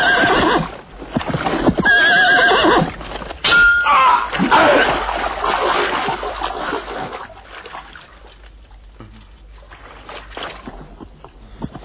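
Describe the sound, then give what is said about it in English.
A horse neighs loudly as a rider approaches on horseback, with hooves clattering beneath a dense, busy mix of sound that is strongest at the start and gradually grows quieter. “I see when Mordred rides up now in this next shot, and for the coup de grace.”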